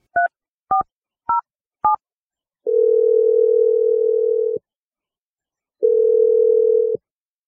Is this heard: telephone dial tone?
yes

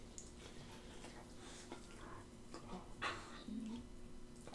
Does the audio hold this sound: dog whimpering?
yes

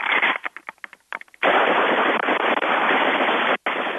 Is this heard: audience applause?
no

